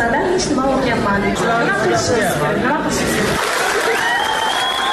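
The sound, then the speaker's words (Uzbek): Clapping from participants at a university meeting, applauding a female student's remarks about medical training. A steady wash of applause runs throughout, with voices and crowd chatter over it. “Video yig'inining boshqa ko'plab ishtirokchilari talaba qizning so'zlarini qarsak bilan qutlashgani aks etgan.”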